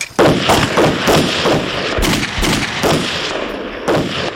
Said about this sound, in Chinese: 再装神弄鬼的话，真的开枪了！